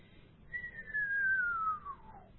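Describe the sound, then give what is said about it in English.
A radio whistler produced by a lightning strike in New Zealand: a single clear, pure tone glides steadily downward from high to lower pitch over about two seconds, above a faint low static hiss. “A descending whistling note starts with the high frequencies, ends up with the low frequencies. And that's caused by a lightning strike in New Zealand.”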